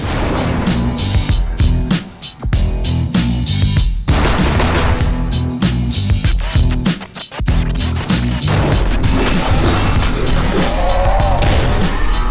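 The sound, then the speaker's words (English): Gunfire from a six-shooter in a supernatural western video game trailer: many sharp, rapid shots crack over a dense, loud backdrop of roaring and skidding noise that briefly drops out twice. “an exciting new supernatural western in which you must fend off hordes of the undead with your trusty six-shooter.”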